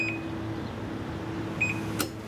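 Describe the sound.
A door-mounted QR code scanner at a self-service container shop gives a short electronic beep, then later a quick double beep and a sharp click, all faint over a steady low hum.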